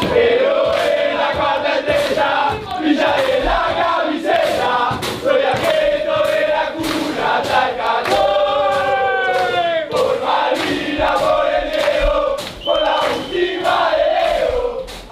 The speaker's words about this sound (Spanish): Por cierto, anoche, tras la remontada ante Egipto, inauguraron en el vestuario el nuevo cántico de este año que suena así.